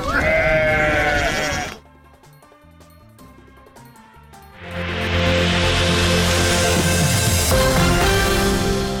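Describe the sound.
Sheep and goats belonging to nomads' herds in Kandahar bleat loudly in many overlapping calls. After a busy opening there is a brief quieter stretch, then a dense, sustained chorus of bleats returns.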